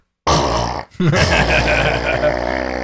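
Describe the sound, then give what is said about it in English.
A muffled fart sound effect blasts at maximum volume through a speaker: a loud, low, buzzy rasp that starts abruptly, breaks off briefly, then drags on in a sustained, rumbling sputter. “I connect to the speaker in there sometimes and just make it play fart sounds at maximum volume.”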